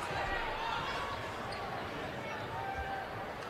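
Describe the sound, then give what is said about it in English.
A basketball dribbled on the court as a player holds the ball late in a close game, its bounces largely buried under continuous commentary and crowd noise. “She may want to just hold it and dribble it.”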